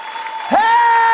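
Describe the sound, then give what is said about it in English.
A church audience claps hands in praise, a short burst of clapping under which a sustained organ-like tone enters midway and holds steady. “Somebody give the Lord a hand clap of praise.”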